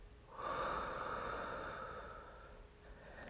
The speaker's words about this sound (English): I want you to take another deep breath in through your nose and slowly out through your mouth.